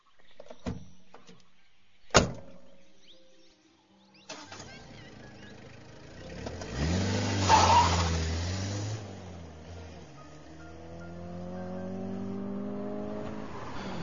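A car engine starts and pulls away fast as the driver floors it, a few sharp clicks first, then a loud roar that rises in pitch as it accelerates and settles into a steady drone.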